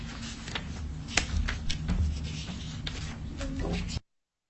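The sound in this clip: A pen scratches and rubs as someone signs a bill folder during a break in a legislative committee meeting, making a series of quick, dry strokes before it stops abruptly into silence.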